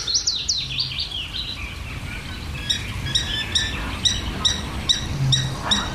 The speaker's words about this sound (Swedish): Lövsångaren kör ju för fullt. Och sen är det en trädgårdssångare som även har vaknat här.